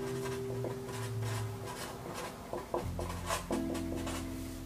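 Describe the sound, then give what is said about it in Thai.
A pen scratching on paper in handwriting: many short, quick strokes in an irregular scribbling rhythm, fairly faint, over steady background tones, with no talking. “ลายมือไม่ค่อยสวยนะ เพราะว่าไม่ค่อยได้เขียน”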